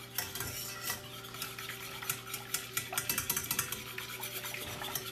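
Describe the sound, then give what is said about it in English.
Whisking ingredients together in a bowl in a home kitchen produces quick, rhythmic metallic scraping strokes that repeat throughout, with a steady low hum underneath. “And make sure to whisk it all together so that it's nicely incorporated.”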